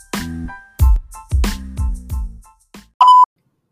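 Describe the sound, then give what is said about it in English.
A playful transitional sound effect: a run of short, bouncy pitched tones with low thumping bases, ending in one brief, bright electronic beep after a short pause. “in the meantime, sit tight and enjoy this transitional sound.”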